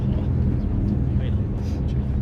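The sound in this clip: Steady, loud, low-pitched engine roar of an aircraft on approach to land with its landing gear lowered and locked, a continuous rumble with no breaks.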